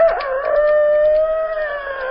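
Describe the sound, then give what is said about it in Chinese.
A human voice imitates a rooster crowing, as a chicken thief does at night: a single long, drawn-out call held at a fairly steady pitch, loud and alone. “偷鸡的装起来了公鸡啼。”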